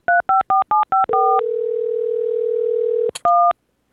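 Telephone dialing tones: five short two-tone beeps in quick succession, then a long steady tone, a click, and one final two-tone beep.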